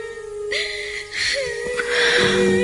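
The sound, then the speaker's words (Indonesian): A woman moans and cries in drawn-out, wavering whimpers, her voice sliding up and down in pitch, rising into a louder, breathy sob at the end. “ya Tuhan, aku mendengar suara rintihan menangis seorang perempuan.”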